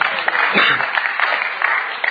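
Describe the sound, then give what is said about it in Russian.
Applause from an audience, a steady dense patter of many hands that holds at an even level for about two seconds, with a slight swell midway. “Смотри, Богу аплодисмент.”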